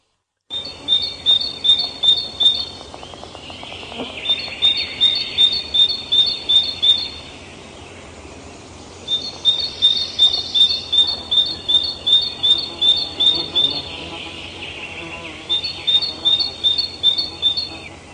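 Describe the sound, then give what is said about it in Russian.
Tits singing: rapid series of repeated high, thin notes delivered in several phrases with short pauses between them, alone over a faint background. “Синицы.”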